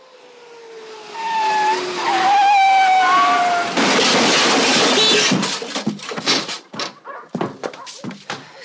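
A drunk driver's car skids and crashes into a lake: a long tire squeal with whistling tones, then a loud rushing roar, followed by a series of irregular sharp thuds and bursts.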